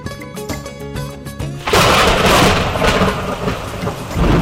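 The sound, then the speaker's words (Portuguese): Loud thunder rumbles over heavy, steady rain. The storm noise cuts in suddenly after a short stretch of music and continues as a dense, roaring wash to the end. “Ih, vai chover, hein, Jéssica?”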